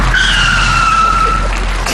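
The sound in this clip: A car braking hard with its tires skidding: a loud, sustained high squeal runs almost the whole clip, steady in pitch over a constant road rumble.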